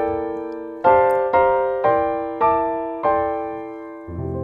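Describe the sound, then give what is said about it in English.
Piano playing a melody harmonized with chordal voicings: a held opening chord, then six struck chords at a moderate, even pace, each ringing and slowly decaying, the last one in a lower register. “And then I'm going to harmonize or treat that melody using chordal type voicings. And that would sound something like this.”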